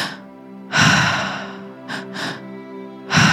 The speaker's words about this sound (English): Two inhales through the mouth, one exhale out the mouth.